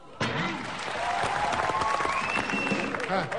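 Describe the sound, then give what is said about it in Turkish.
An audience claps in a dense, steady burst of applause that begins abruptly and continues at an even level to the end, while a voice speaks over it. “Ben böyle yapınca alkışlayacaksınız. Tamam mı?”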